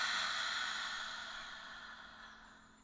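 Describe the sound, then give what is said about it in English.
A slow, deep exhale during a guided breathing exercise: a single long, breathy rush of air that starts fairly strong and gradually fades over about three seconds, with no talking. “let's take a nice, really deep breath in where it goes. The breath goes down into your toes the whole way through your body. So breathe in. And release it.”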